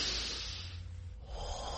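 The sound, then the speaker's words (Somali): A long, deep breath taken during a calming breathing exercise: a soft, airy hiss of breathing that thins out partway through and then swells again, quiet and heard alone. “ma doonaysaa inaad isku dayda inaad neef dheer qaadataan haye bilaaba”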